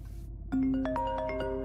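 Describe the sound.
A mobile phone rings with an incoming call in a drama: a bright electronic ringtone of clear, melodic tones starts suddenly after a short stretch of hiss and continues steadily and fairly loud.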